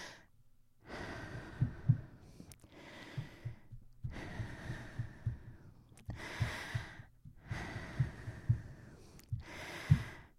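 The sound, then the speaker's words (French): A man breathes deeply, with slow inhales and exhales in a steady repeating cycle. Each breath is a soft, airy rush, fairly quiet, with no talk. “Est-ce que j'ai le droit de respirer? Vous avez le droit, monsieur. Vous êtes en phase de respiration. Alors, vous pouvez respirer, merci.”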